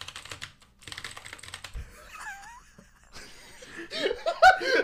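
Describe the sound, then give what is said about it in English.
Typing on a computer keyboard produces rapid, uneven clicking, joined by laughter and chuckling that grows louder toward the end. “Let me type it up.”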